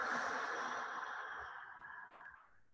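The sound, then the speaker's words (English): Deep breathing during a guided meditation, in through the nose and then out, comes through as a soft, airy hiss that slowly fades, with no talking. “Take a deep inhale in through your nose. Exhale.”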